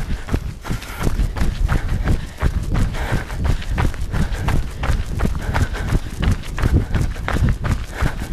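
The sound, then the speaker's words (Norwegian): Running footsteps during an interval exercise, with a runner going back and forth. Many quick, evenly spaced footfalls land in a steady, driving rhythm throughout. “Jeg løper da to den ene veien, og to den andre veien. Starter vi om 5 sekunder.”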